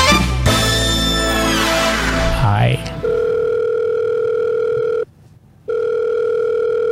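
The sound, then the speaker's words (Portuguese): A telephone call is placed: after a few seconds of voices and sliding tones, a steady low electronic tone holds, cuts off briefly, then resumes unchanged. “Vamos ligar pra ele e descobrir o desfecho.”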